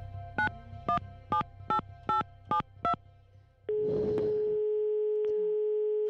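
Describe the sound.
Telephone dialing while calling about a rental flat listing: seven short, evenly spaced key-press tones, then a brief rustle and a steady, continuous line tone that holds to the end.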